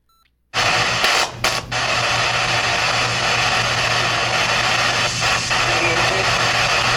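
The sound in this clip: Harsh radio static from a spirit box during a paranormal investigation at a manufacturing building. It starts abruptly as a loud, steady hiss over a low hum, broken by a few brief dropouts near the start.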